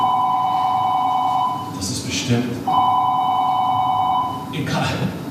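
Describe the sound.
A telephone rings in a stage play, with two long trilling bursts separated by a short pause. A voice speaks briefly in the gap and again after the second ring.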